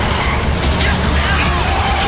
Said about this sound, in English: The muggers shift back and forth between lanes.